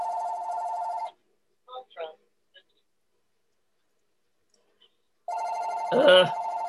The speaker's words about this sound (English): Sorry about my phone.